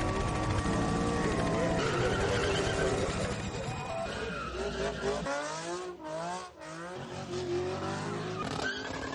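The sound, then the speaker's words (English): Cars street racing in Florida with tires skidding: loud continuous engine roar and screeching, squealing tires, with a voice talking over the din. “Street racing, stunt driving, and roadway takeovers have become increasingly common in Florida.”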